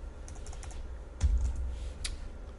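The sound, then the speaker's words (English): Typing on a computer keyboard: a few quick, soft key clicks over a steady low hum, with one slightly louder tap in the middle. “So let me type, first of all, WPF events.”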